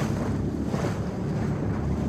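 A boat travels up a river with a steady low rumble, water wash and gusty wind noise. No voices are heard.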